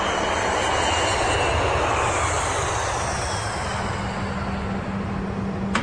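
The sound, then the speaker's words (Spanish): An airplane's engines roar loudly and steadily as it arrives at its destination, a dense, continuous drone with a low rumble that holds throughout without a break. “Cuando el avión llega a su destino, el mismo Nick Fury los recibe y los lleva a un apartado.”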